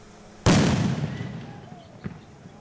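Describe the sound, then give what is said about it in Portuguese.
A bomb squad detonates a suspicious box on a residential street in Curitiba. One sudden, loud blast fades into a long rumbling decay, followed by a faint, short thump. “O esquadrão antibombas foi acionado e, por segurança, explodiu a caixa.”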